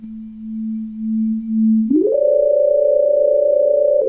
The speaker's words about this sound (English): we're obviously making weird synth noises today, because today is synth day